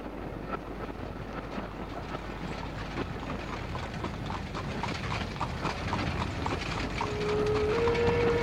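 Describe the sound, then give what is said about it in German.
Horses' hooves clip-clop as they pull a carriage racing to catch a train, a steady rapid beat under a windy rumble that grows slightly louder toward the end. “Schnell, schnell, treiben Sie Ihre elenden Gäule an.”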